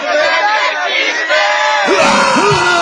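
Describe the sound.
A large crowd yells together on a countdown cue at a joke-championship event in Mexico City's Zócalo square. It is a loud, sustained roar of many voices, with a few rising and falling shouts near the end.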